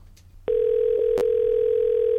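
A telephone call to a brothel rings through as a steady line tone that starts abruptly after a faint click. It holds one constant pitch, with a couple of soft clicks during it.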